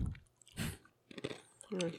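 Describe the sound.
Someone chews a crunchy ramen noodle snack in loud, crackling bursts separated by short pauses, with a brief bit of talk near the end.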